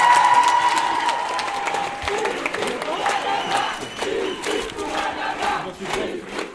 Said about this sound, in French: Je vais vous demander, vraiment, parce que moi je respecte ce combat énormément, de faire une standing ovation, s'il vous plaît, pour Assa Traoré, s'il vous plaît.